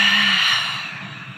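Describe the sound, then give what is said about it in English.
One long, deep breath is exhaled through an open mouth during a guided breathing exercise, a soft breathy rush that gradually fades away. “As deep as you can through the nose, open mouth, exhale it out.”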